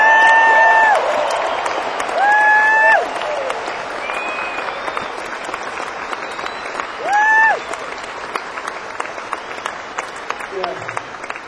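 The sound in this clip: A concert audience applauds the touring crew with sustained clapping and cheering, and a few loud, piercing whistles rise above the crowd noise.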